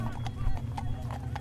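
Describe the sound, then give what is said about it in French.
Police horses' hooves clip-clop in an irregular patter of soft clacks as a line of about fifteen mounted officers blocks a narrow passage, the hoofbeats fairly faint over a low, steady rumble. “Un mur d'une quinzaine de policiers, perché sur des chevaux immenses, bloque un passage un peu plus étroit.”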